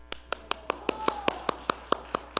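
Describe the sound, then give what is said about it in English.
A single person claps by hand during a church service, about a dozen sharp, evenly spaced claps in a steady rhythm, with a faint voice running underneath. “I'm clapping because it's a privilege.”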